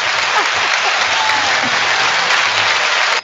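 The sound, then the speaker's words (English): A clap-button sound effect plays steady crowd applause, loud and dense with even clapping throughout, until it cuts off abruptly at the end. “We need to bring that button to our gym and put it on the speakers, too, when we play. I like that, the clap button.”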